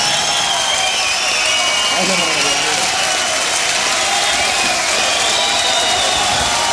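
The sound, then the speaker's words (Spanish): An audience in Madrid applauds in a dense, unbroken roar of many clapping hands mixed with cheering voices, holding steady for several seconds. “aplauso.”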